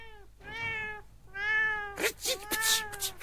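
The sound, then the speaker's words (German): A black cat with two white paws meows: two drawn-out, tonal meows separated by a short pause, followed by shorter, rougher bursts of sound. “Genauer, eine schwarze Katze mit zwei weißen Pfoten.”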